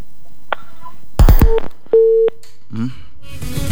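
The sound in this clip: A telephone busy signal sounds after a call is hung up: a couple of steady, mid-pitched beeps, one short and one longer, among clicks and scattered line noise.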